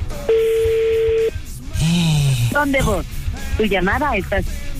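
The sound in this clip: A single steady ringback tone on an outgoing telephone call, held for about one second at an even mid pitch, then voices talking over a busy line.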